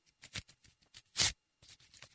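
Ripping sounds of something being torn into tiny pieces: many short, crisp tears in quick succession, with one louder, longer rip in the middle followed by a brief pause and a few smaller tears.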